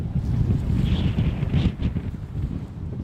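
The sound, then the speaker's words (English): Strong wind buffeting outdoors over barren, boggy grassland, a loud, continuous roaring rush with low, gusty rumble that swells and eases slightly but never stops. “And there's wind, a lot of wind.”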